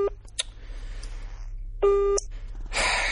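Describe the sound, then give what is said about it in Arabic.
A telephone call being dialed and left unanswered: a couple of short beeps, a longer steady electronic tone with a bright buzzy edge, then hiss. “ها اديني بطلبه اهو”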